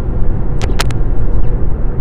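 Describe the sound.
A car driving on the road on the long ride home, giving off a loud, steady low rumble, with a few brief brighter bursts in the middle.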